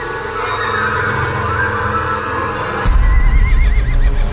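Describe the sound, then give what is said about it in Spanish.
Horses neigh in growing frenzy: a shrill, wavering whinny rises in the second half over a dense, loud low rumble, with steady noise underneath throughout. “los caballos coceaban y relinchaban con creciente frenesí”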